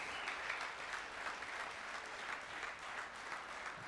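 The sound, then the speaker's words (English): An audience in a church applauding the women who have been singing, a steady, dense wash of clapping that holds at an even level throughout, faint overall. “Let's give a hand to the ladies that has been singing on the stage.”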